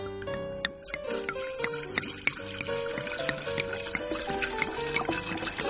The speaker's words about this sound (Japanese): それを願って乾杯したいと思うので、ちょっとお継ぎいたします。